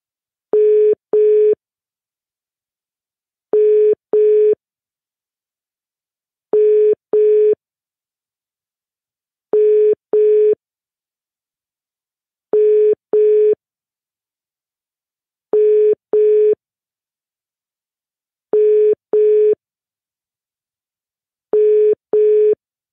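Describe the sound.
Telephone ringback tone heard while calling someone back after a missed call: eight evenly spaced double beeps, each pair a steady mid-pitched tone repeating about every three seconds, with silence between and no talk.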